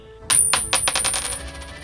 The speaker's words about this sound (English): I have a quarter right here. Let's see what happens.